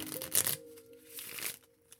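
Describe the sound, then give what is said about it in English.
A deck of playing cards is shuffled in two quick riffling bursts, crisp papery rattles separated by a short pause, with a faint held tone underneath. “52 cards is what makes a deck of playing cards.”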